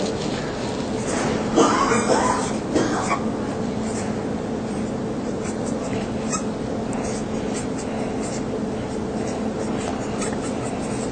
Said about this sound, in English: So I'm going to write it down.